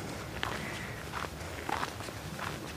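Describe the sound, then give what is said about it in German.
Footsteps of someone hiking uphill on forest paths, a few slow, soft crunching steps spaced out over a constant background hiss. “Während ich so die Waldwege hier hochschnaufe.”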